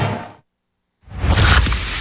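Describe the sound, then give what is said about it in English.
Pepsi Zero Sugar cola pours with a hissing fizz: a short burst, a brief silence, then a longer, louder, steady rushing pour. “You hear that? That's the sound of Pepsi Zero Sugar, the better-tasting, more refreshing Zero Sugar Cola. Listen to that endless pour.”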